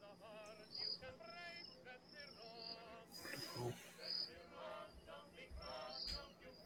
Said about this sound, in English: This cricket soundtrack is making me sleepy.